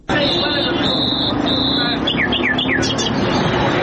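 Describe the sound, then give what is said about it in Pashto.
Wild birds for sale at a bird market in Kandahar, including nightingales, partridges and mynas, give high whistles and short sweeping chirps beneath a man's steady talking. “دا د کندهار ښار په منځ کې د وحشي مرغانو د پیر او پلور بازار دی دلته پلسکونه بیلابیل ډول وحشي مرغان لکه بلبلان جلان زرکی میناوی او نور”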